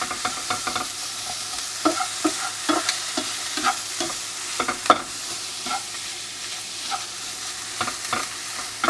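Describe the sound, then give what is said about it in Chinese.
Shrimp and pork slices stir-frying with onion and shrimp oil in a pan: constant loud sizzling, with many quick scraping and clicking strokes of a utensil against the pan. “好，都变成红色了之后呢，你就可以把你的肉片，或者是你有其他的肉类，你就可以放下去，稍微跟洋葱一起拌炒。”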